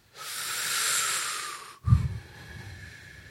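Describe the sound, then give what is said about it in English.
A long, deep inhale through the mouth, a steady airy hiss lasting over a second, then a brief low puff of breath and a softer, rougher exhale trailing off. “Now focus on that and watch my hand. Now breathe deep.”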